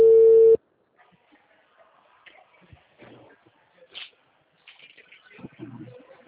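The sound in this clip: A telephone line tone after a dropped call: one short, loud, steady mid-pitched tone lasting about half a second, then faint rustling and quiet background noise.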